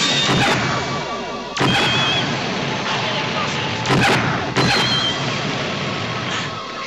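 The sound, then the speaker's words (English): Sci-fi sound effect of missiles striking a starship: several sharp, crashing impact bursts over a continuous loud rumbling roar. “More missiles strike the ship.”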